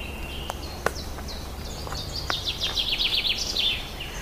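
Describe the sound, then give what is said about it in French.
A common chiffchaff sings high, repeated chirping notes over a faint background hiss. A chaffinch then cuts in with a rapid, bright, descending trill of many notes. “En arrière-plan, nous entendons de nouveau le pouillot véloce avec son tchif-tchaf, tchif-tchaf, qui se fait couper la parole par le pinson des arbres.”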